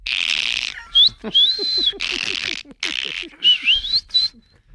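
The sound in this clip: Whistled greeting in delfinero canario, a Canarian whistled language: a run of shrill, high whistles that glide up and down in pitch, broken into short phrases by brief pauses.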